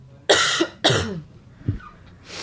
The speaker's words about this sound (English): Coughing and hacking, bad advertisement.